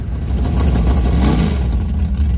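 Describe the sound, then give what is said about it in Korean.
The large-displacement engine of a 1957 Chevrolet converted into a race car revs with a loud, deep, rumbling roar that holds steady and dense throughout, with no voices over it. “로버트 씨는 57년산 쉐보레라는 구형 모델을 인터넷에서 찾아 $8,000로 주고 구입했고 차 앞쪽에 대배기량 엔진을 얹어 경주차로 개조했다고 합니다.”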